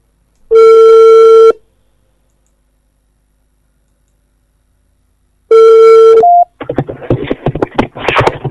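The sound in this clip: A telephone rings with two long, buzzing tones separated by several seconds of silence. The second ring is cut short by a brief higher beep, then an irregular rustling noise follows.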